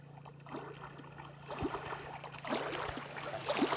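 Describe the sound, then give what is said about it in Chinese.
Gentle waves and water lap at Baisha Lake, a faint, steady wash of water with small splashes and trickles rising and falling. “我猜白沙湖的海浪声、水声， 完全正确，完全正确，完全正确。”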